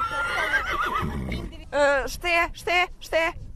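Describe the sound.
A horse whinnies during a riding lesson. A quavering high neigh is followed by several strong, separate pulsed bursts toward the end.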